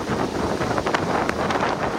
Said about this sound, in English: A punishing storm that dropped lots of rain on parts of Florida is now moving north.